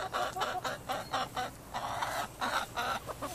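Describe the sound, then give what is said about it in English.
A hen clucks as it is picked up and petted, giving a quick run of short rhythmic clucks with one longer drawn-out call partway through, moderately loud and with no voices. “One hand full of eggs, she stoops to scoop up a hen with the other, sets down the eggs to pet the bird.”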